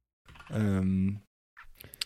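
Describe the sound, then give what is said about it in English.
A computer keyboard gives a short burst of quick, light key clicks right after a brief spoken sound. “hey, hang on, you won't be able to hear anything because I'm typing Amazon. Because I want to show you the keycaps.”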